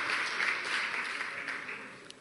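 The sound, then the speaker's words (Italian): An audience gives faint applause to welcome a guest onto the stage. It is a soft, steady patter of many hands that gradually thins toward the end. “Quindi io credo che gli dobbiamo fare un grandissimo applauso, dargli il benvenuto sul palco.”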